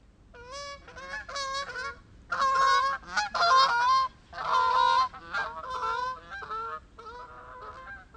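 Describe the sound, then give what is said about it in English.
Canada goose honking in a long series of loud, nasal, resonant calls, some short and some drawn out, with brief gaps between them and no other sounds. “Canada goose.”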